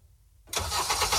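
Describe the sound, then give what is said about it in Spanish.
A car engine cranks and catches after a brief near-silence, then runs with a loud, steady roar to the end. “En Karen, seguimos con motores encendidos.”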